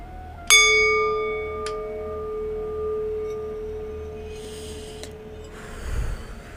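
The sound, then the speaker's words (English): A struck singing bowl rings out with a clear, long-sustained tone that slowly fades. A lighter second strike follows shortly after, and a faint low rustle comes near the end. “Let the sound of the sound bowl and the singing bowl harmonize and align our chakras.”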